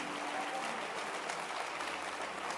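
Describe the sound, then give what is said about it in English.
An audience at a religious gathering applauds without a break, a dense, even patter of many hands clapping at a fairly soft, steady level. “Keep clapping your hands.”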